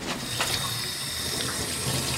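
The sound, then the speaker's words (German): Running tap water as children wash their hands at a sink, heard as a steady, even rushing hiss that fills the whole clip with no voices. “Die Kinder waschen sich die Hände.”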